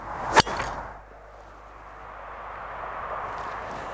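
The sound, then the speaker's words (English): A light Cobra golf club with a Rogue 95 shaft is swung once: a single sharp, fast swoosh near the start that peaks and cuts off quickly, followed by quiet outdoor background hiss. “First thing you notice when you swing it, it's actually quite a light club, and you know, all the technology they've put into the head does make it feel quite light”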